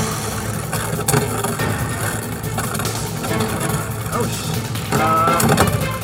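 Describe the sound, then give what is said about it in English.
Beyblade spinning tops whir steadily after being launched into battle, a loud, continuous mechanical drone that resembles an engine, with a brighter, louder burst near the end. “All right, gentlemen. Start your Beyblades. 3, 2, 1. Let it rip.”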